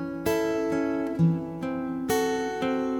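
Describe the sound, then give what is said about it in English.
Fingerpicked notes of a G chord with D in the bass, then a G minor 6 with D in the bass, played in a forward-roll pattern: a steady series of clear plucked notes that ring and overlap, with a fresh chord struck partway through. “the next measure is based around a G chord with a D in the bass, and then a G minor 6 with a D in the bass. It sounds like this.”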